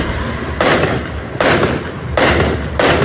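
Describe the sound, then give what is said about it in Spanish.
Fireworks exploding over Vallenar, captured on a phone video: loud, dense crackling and rumbling throughout, with four sharper bursts at fairly regular intervals. “A ver, escuchemos los fuegos artificiales.”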